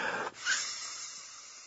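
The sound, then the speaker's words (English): Breathy puffs of someone blowing air into an inflatable travel pillow: two short, hissing blows with a brief pause between them. “Well, speaking of on the air, I'm almost out of breath blowing up this pillow that I'm going to use on the airplane.”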